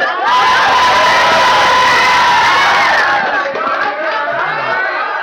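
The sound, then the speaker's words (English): A church audience cheers and shouts loudly for several seconds, a dense roar of voices that stays strong throughout and eases a little toward the end. “You guys were weak. You cheered when you were supposed to do something else.”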